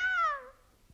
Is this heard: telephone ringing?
no